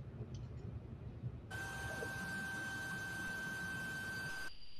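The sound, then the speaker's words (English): High-frequency ducted fan noise: a steady roaring hiss with thin whining tones starts abruptly, holds evenly for about three seconds, then cuts off sharply. “All right, so that's a relatively high frequency fan noise.”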